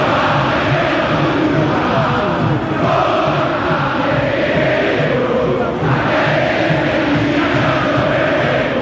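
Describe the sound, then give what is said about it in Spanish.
Boca Juniors fans sing together in a packed football stadium during a match against Recoleta, forming a dense, continuous roar of massed voices that stays loud and unbroken throughout. “Y canta el público de Boca.”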